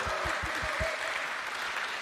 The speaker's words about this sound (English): let's give her a round of applause